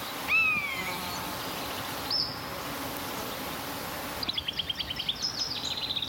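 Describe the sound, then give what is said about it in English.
Exotic birds call in a forest: a drawn-out descending whistle, a brief high note, then a rapid run of sharp repeated chirps, all over a faint steady background hiss. “countless exotic birds starting to call out to one another, their cries reverberating as if in a giant cathedral.”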